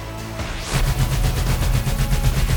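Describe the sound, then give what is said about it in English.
A big sci-fi laser turret blaster firing: a quick rising sweep, then a loud, steady stream of rapid repeating shots. “Holding onto the big weapon with 2 hands, he pulled the trigger.”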